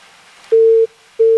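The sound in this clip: A phone's busy tone after a call is disconnected: two steady, level electronic beeps at one fixed pitch with a short silent gap between them, the second cut off at the end.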